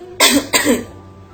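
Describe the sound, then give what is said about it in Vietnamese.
Two dry coughs in quick succession, short and rasping, followed by quiet. “Hai tiếng ho khan cắt ngang say mê của Lục Tuyệt Thanh.”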